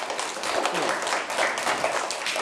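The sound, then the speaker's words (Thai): Children applaud a classmate in a steady, dense patter of hand clapping that holds at an even, moderate level. “ปรบมือให้เพื่อนด้วย”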